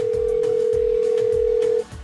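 A telephone dial tone sounds while a call is being placed: a single steady, continuous tone lasting almost two seconds over a noisy background, then it cuts off abruptly.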